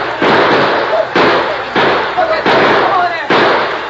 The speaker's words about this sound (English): Come on, man. Shoot for all you're worth. Shoot!